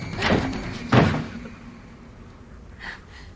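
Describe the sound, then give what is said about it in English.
A closet door being opened: two short, sharp clatters close together, then a softer brief knock. “She opens the closet door.”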